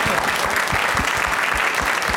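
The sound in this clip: Audience applause welcomes a guest to a comedy show. The clapping is dense, steady and loud, with no voices over it.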